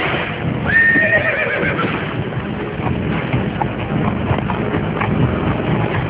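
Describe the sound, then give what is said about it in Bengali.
A horse pulling a carriage whinnies loudly near the start, then its hooves clip-clop steadily on and on beneath a constant rumble of wheels and wind. “আগন্তুক তার ঘোড়ার গাড়ি ছুটিয়ে চলে যেতেই”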